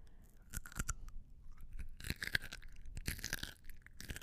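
Crunchy bites into a petite snack cruncher kosher dill, a small gherkin-like pickle: a few crisp, sharp crunches, then denser wet chewing and crackling, all faint and close with quiet gaps between bursts.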